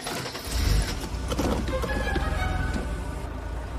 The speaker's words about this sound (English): He glares at her, then turns on the car.